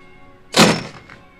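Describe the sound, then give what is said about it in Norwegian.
A door slams shut on a small shed with one heavy, abrupt thunk that dies away quickly into quiet. “Plutselig slo døra igjen bak dem.”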